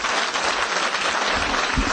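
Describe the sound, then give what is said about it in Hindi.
Loud clapping from an audience applauding teachers, a dense, even patter of many hands that carries on without pause. “Teachers के लिए ताली बजा भाई जोर।”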